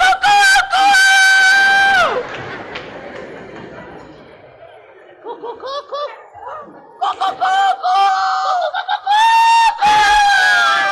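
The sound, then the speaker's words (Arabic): A man in a comedy sketch pretends to be a goat but clucks like a chicken, giving bursts of short, nasal, high vocal calls. A crowd laughs loudly around and between the calls. “تحب اعمل لك معزه؟ طب سمعني كده.”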